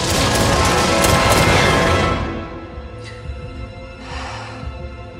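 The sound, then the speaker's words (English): Gunfire exchanged in a shootout as one man shoots and another returns fire: a dense, loud barrage of overlapping shots for about two seconds, then a quieter stretch with a few faint bursts. “Adrian shoots and Joe returns fire.”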